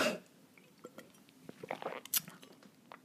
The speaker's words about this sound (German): Ja, lasst mich noch mal einen Schluck trinken.